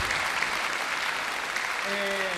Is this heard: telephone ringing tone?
no